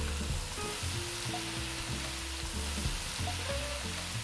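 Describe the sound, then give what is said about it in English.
Leek sautéing in a pan gives a steady, continuous sizzle with a soft, even hiss and faint stirring movement throughout, without pauses. “We saute a little bit of the leek.”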